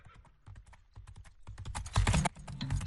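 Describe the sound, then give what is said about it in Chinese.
Crisp clip-clop of horse hooves outside a post station: many quick, sharp strikes in an uneven run that grow louder toward the end. “就听见驿站外传来脆响的马蹄”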